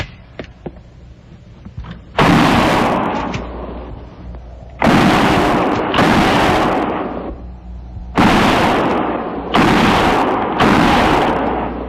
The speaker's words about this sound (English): And no more than 3 rounds each. Fire between the trees.